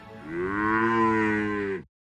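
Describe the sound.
A single long moo from a cow, loud and steady in pitch, holding for almost two seconds before cutting off into a short silence.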